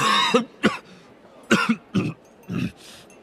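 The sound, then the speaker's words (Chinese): Several short, harsh coughs mixed with throat clearing, as a boy pretends to have choked on a bread roll at a meal. The bursts come in uneven clusters with brief gaps between them. “哈利觉得脸上一阵发烧，假装被面包卷呛着了，咳嗽了几声。”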